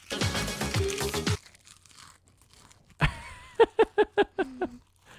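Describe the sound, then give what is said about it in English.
Loud crunching from biting a Calbee seaweed and salt potato chip, a dense crisp burst followed by quiet, then a run of short voiced sounds. “I need a chip. Oh, final crunch coming at you in 3, 2, 1.”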